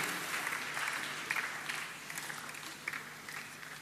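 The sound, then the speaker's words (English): An audience claps in response to a question at the Newday 2023 stage: steady, soft applause with a few brief louder swells of clapping throughout. “you have responded to that question with a clap, which I presume is a yes.”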